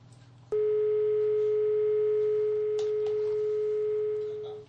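A steady electronic phone tone after a call-in line disconnects: a single pure pitch that cuts in abruptly after a short quiet stretch and holds unbroken to the end, tapering slightly at the close.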